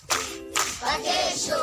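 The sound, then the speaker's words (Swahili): Applause for a woman at a primary school riddle event: bursts of clapping separated by short gaps, then a longer, continuing round of claps. “Makofi kwa shangazi.”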